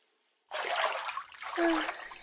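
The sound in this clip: Water running into a bubble bath, a steady rushing, splashing noise that starts abruptly after a brief silence and continues at an even, moderate level to the end.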